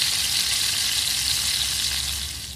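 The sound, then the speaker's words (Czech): Lard sizzles and spits steadily as a doughnut fries in it, a dense bright hiss that holds even throughout and eases slightly at the end. “Tak si řekla, usmažím koblížek, který plánovala na sádle.”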